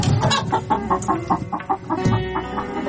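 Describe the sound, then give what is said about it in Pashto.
A hen clucks in a rapid, steady series of many short, moderately loud clucks that run throughout with a rough, pulsing rhythm. “د چرګې کغاس وه”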